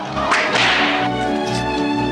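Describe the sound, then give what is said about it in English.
Whip lashes from an audio drama, where a sergeant whips a priest across the back. A few sharp cracks and thuds land in the first second over a sustained, droning musical tone that carries on to the end. “The sergeant takes a few paces back and slashes at the priest's back. Take me to the big hacienda, pronto! The sergeant continues to whip Don Felipe.”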